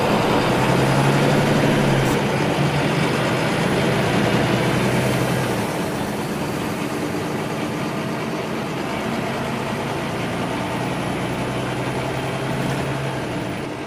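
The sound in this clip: A city bus engine in the capital rumbles steadily amid traffic, a dense continuous drone with no pauses and no voices, holding a fairly even loudness throughout.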